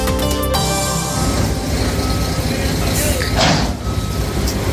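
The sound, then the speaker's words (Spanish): Heavy construction noise from the A5 road tunnel works in Madrid: a loud, continuous rumble of engines and machinery with a brief hissing burst near the end. “Pues este es el ruido que escuchan prácticamente todas las horas del día los vecinos que tienen sus casas, fíjate, a un metro de las vallas de las obras de soterramiento de la A5.”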